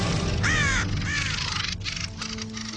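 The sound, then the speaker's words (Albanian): A crow caws twice, two harsh, hoarse calls in quick succession, loud and alone with no talk. “Korbi shpëton sulmit me shumë vështirësi.”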